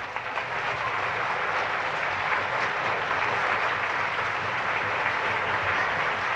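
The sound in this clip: Audience applause for a bandleader and his orchestra: dense, steady clapping that holds at an even, fairly loud level throughout, with no voices standing out above it.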